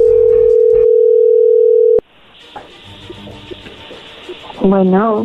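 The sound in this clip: A telephone call is placed: a loud, steady dial tone holds for about two seconds and ends in a click, followed by quiet line noise and a brief warbling tone near the end.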